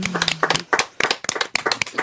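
Audience applause at a live jazz club concert: scattered hand claps in uneven bursts with short gaps between them, and a low sustained tone underneath at the start.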